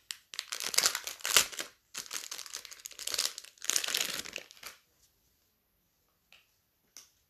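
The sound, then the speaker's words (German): Plastic film crinkling as it is peeled off a packaged collectible headband. Three bursts of loud crackling follow in turn, then near silence with a couple of faint ticks. “Das Stirnband von Pain. Folie abziehen.”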